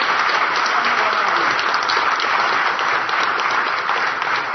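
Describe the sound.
A round of audience applause at a gathering, a dense, even roar of clapping that stays steady throughout with no talk.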